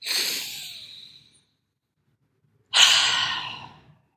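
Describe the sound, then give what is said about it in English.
A deep breath in, then a long breath out, taken during a guided gratitude exercise: two soft, airy breaths separated by about a second and a half of silence, each fading gradually. “Take this time and offer some gratitude for what's going on in your life. Take a deep breath with me.”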